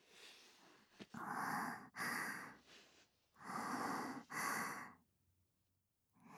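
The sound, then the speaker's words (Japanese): Close-up sniffing: a sharp click, then four drawn-out airy inhalations in two pairs separated by a short pause, fading to near silence at the end. “間近で嗅ぎたいって。呆れないでくださいね。ちょっとだけですから。”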